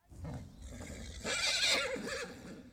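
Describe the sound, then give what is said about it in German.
A horse neighs in one loud, quavering whinny that wavers in pitch and lasts about two seconds, heard alone. “Ein Pferd.”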